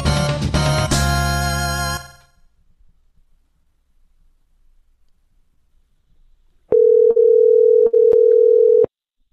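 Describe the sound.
A telephone tone sounds while a caller is being dialed back: a steady, loud, mid-pitched tone lasting about two seconds with brief breaks. Before it, a loud passage cuts off into near silence.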